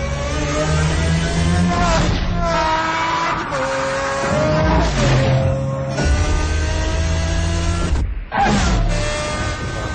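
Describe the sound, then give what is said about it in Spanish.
Car engine revving in the racing video game Shift 2, a loud, continuous harmonic drone whose pitch climbs and drops as the car accelerates and shifts, with a brief dip near the end. “¿Qué tal Shift 2? Que es uno de los juegos de carreras que yo, por lo que he visto y he jugado también, no tanto como tú, pero... pinta brutal.”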